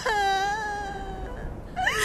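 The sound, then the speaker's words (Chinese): A frightened young boy cries in a loud, sustained wail whose pitch slowly sags. After a brief break, a fresh sob rises again. “哭出来就好了”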